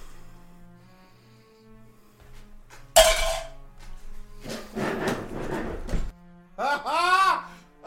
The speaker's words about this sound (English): I don't know if I trust this dice. I like this one better.